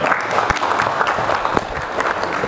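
An audience at a business conference applauds in a dense, even patter of many hands clapping from start to end, with no talking over it.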